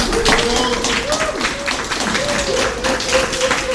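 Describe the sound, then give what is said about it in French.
An audience claps to cheer on two debate teams, a busy run of many quick claps at a steady level, with a voice heard over the applause. “Veuillez maintenant acclamer pour les encourager les deux équipes.”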